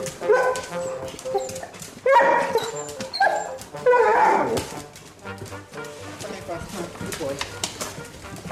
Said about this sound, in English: I have Weimaraner dogs.